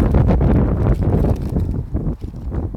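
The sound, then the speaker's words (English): Wind buffets a microphone outdoors in a loud, continuous low rumble that surges and dips with the gusts, with no voices. “I'm going to fight through this wind.”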